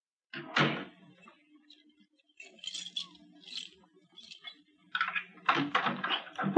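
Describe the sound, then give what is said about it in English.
A door lock fumbled with and opened in an old detective radio drama: several short bursts of metallic rattling and clicking spread over quiet stretches, growing busier and louder toward the end. “Oh, what's the matter with this lock? Oh, it's not the lock, it's me. There.”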